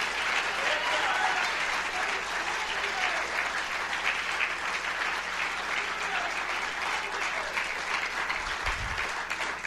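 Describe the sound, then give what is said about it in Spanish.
A church audience applauds at an evangelistic campaign service, a dense and steady clapping that stays loud and even for the whole stretch. “Den un aplauso al Dios Todopoderoso.”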